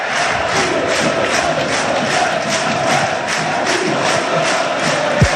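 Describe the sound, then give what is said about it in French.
A rugby crowd roars in the stands at La Rabine stadium in Vannes, a loud, continuous wall of cheering with a steady rhythmic pulse running through it, with no talk over it. “Et on saute dans les tribunes Vantes. Écoutez la belle ambiance de la Rabine. Le public breton sera au rendez-vous à Toulouse le 6 juin prochain.”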